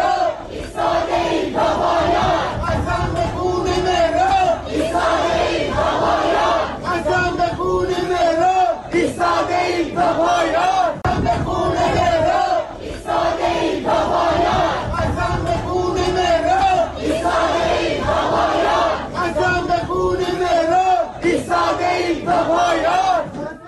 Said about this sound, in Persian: معترضان در مراسم 40م مهران سماک از جمله شعار می‌دادند که